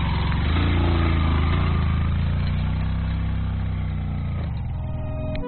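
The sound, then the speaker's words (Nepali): Motorcycle engine straining uphill, a steady low laboring drone that holds for most of the stretch and then drops away near the end. “समथलमा सहजै उक्लिन्छ motorcycle, उकालोमा तान्दै तान्दैन, एकजना ओर्लिनुपर्छ, एकजनालाई मात्रै चाहिँ लान्छ मोटरसाइकलले।”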